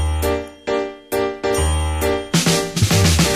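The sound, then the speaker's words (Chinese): Piano notes play a doorbell ding-dong. Several distinct bright notes ring out one after another, each sustaining before the next, then a quicker flurry of notes closes the phrase. “钢琴声飘过来，先是弹奏的门铃声，叮叮咚”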